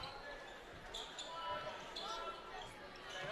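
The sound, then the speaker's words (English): A basketball is dribbled on a court during a game, with several bounces sounding under a steady wash of crowd noise and voices. “Hall gets the ball on the backside of the basket. He dribbles out, puts it in between his leg, drives baseline.”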